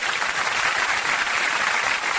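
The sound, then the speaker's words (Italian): Applause and clapping, dense and steady, loud throughout the whole stretch with no talk over it. “Eh sì, merita proprio un bel applauso”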